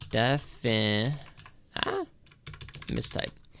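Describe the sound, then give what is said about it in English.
Typing on a computer keyboard while a Google search is entered, with quick clicky taps mixed in with a person talking. “I'll look it up on Google right now. You're going to hear me type in a second.”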